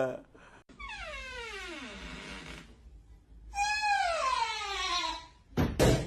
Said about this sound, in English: Stupid door.